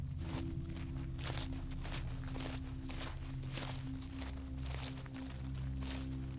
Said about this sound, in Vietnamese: nghe như có tiếng ai đang dẫm lên lá khô đi rào rào ở ngoài